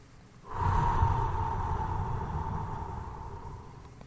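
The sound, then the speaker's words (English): Slow inhalation through the nose: one soft, airy hiss begins after half a second and is drawn out steadily for about three seconds, easing slightly toward the end. “The air needs to come in through only the nose. Take it in slowly. Up to 2 seconds when inhaling.”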